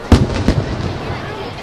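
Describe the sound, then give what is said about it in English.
Fireworks at a stadium: two sharp, loud bangs in quick succession, then a lingering low rumble and faint crackle as the bursts fade. “as the fireworks continue here at the LP Field”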